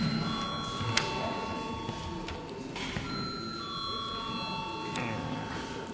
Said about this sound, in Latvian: lūdzu zvanu.